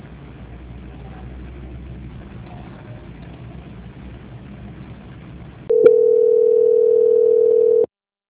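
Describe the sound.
A steady, unbroken telephone line tone marks a call transfer. It sounds alone for about two seconds after a stretch of low, rumbling line noise, then cuts off abruptly.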